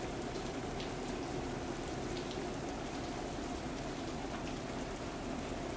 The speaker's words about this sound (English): The white noise of the rainfall is soothing as you hear it tapping on the roof of the station and the various surfaces around.